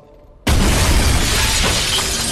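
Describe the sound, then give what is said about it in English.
A glass skylight smashes: after a quiet moment a sudden, loud crash breaks out and turns into a sustained, bright shower of shattering glass fragments that carries on to the end. “smashes through the skylight and lands in front of the three vamps in a hail of glass”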